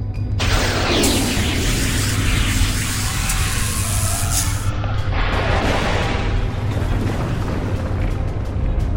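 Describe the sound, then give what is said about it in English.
A spaceship's weapon firing a wide burst: a loud, sustained roaring blast with a booming low rumble and a hissing wash of noise that shifts texture about halfway through, with no voices. “Wide burst. Firing weapon, sir.”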